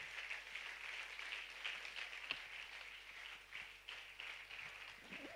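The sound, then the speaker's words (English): Faint audience applause welcoming a speaker at a church service, a soft, even patter of clapping that continues steadily throughout. “let's put our hands together and welcome Dr. Ashish Naidu”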